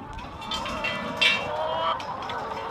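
Hens clucking at a chicken coop: a steady, busy murmur of overlapping clucks and short calls from many birds, holding a fairly even level throughout.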